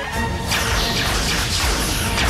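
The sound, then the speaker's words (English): Starship phaser weapons fired at full power during a space battle: a loud, continuous sizzling energy blast with a sweeping whoosh, dense and sustained from start to end. “Full phasers. Firing, sir.”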